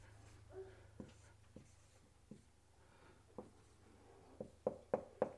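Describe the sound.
Pen scratching on paper as a diagram is drawn by hand. Faint, dry strokes are broken by many light taps, which grow sharper and closer together toward the end.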